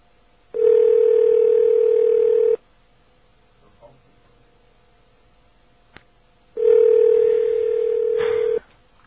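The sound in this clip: A telephone dial tone while someone calls an airline: two long, steady, loud tones, each about two seconds, separated by a few seconds of near silence broken by faint clicks.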